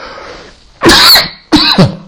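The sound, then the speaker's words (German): Two loud, harsh coughs, the second following shortly after the first, each a rough burst with a brief quieter gap between them and no talk around them. “Da reißt es mal gleich einen Husten aus der Lunge.”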